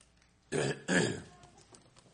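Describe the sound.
Throat clearing to shift a lozenge: two rough, forceful bursts in quick succession, then near silence.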